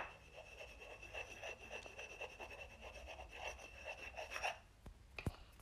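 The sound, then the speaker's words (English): A pen writes on paper in quiet, faint scratchy strokes that repeat in an uneven rhythm, with a couple of sharper ticks near the end. “I'm gonna write that down.”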